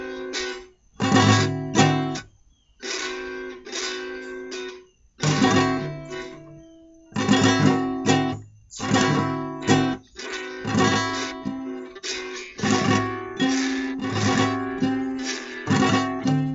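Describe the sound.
Fingerpicked chord on a stringed instrument, the thumb and fingers plucking a repeated right-hand pattern across the strings, many bright plucked notes in a steady rhythm with short gaps between groups, played alone without talk.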